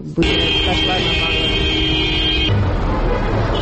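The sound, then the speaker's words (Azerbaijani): Car horns in a street traffic jam: one long, steady horn blast sounds over dense engine noise for about two seconds, then the traffic rumble carries on alone. “Küçə boyunca bir-birinin ardınca düzülən maşın kərvanı, aramsız siqnal səsləri, yol polis əməkdaşlarının xəbərdarlıqları.”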